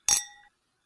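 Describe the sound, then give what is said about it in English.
Glasses clink once in a toast, giving a bright, sharp chime with a short ringing tail that fades into silence. “let's get toasty. Yes. It's time for a little toast. Raise a glass to putting the disobedience back in civil disobedience.”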